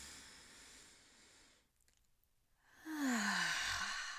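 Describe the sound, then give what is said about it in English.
A deep breath drawn in through the nose during a guided relaxation exercise: a soft airy hiss, a brief quiet pause, then a louder, rushing intake of air. The breath is faint and alone, with no talking. “So let's inhale through our nose.”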